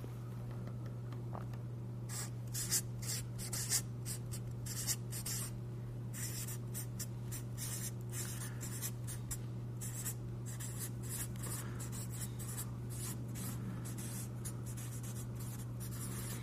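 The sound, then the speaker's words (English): Handwriting with a pen or pencil: many short, scratchy strokes in an uneven rhythm that continue for about sixteen seconds over a steady low hum, with no talk. “I'm gonna write it down first to give you guys some suspense. Okay, I'm gonna write it down, so hang with me.”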